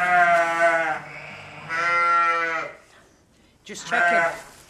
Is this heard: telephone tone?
no